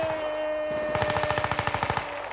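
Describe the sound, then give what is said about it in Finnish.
Rapid automatic gunfire, a soldier firing at a stone during a wartime battle. A fast, even burst of many sharp shots follows a short lull and runs over a steady tonal hum. “Mä siihen, mie ammun tuot kiveen.”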